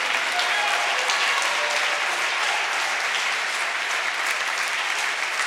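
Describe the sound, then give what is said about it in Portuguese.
Church audience applauding, a dense, steady wash of clapping that holds at an even, loud level from start to finish. “E se você concorda com isso, aplauda o Senhor e dê um grito de júbilo a Ele.”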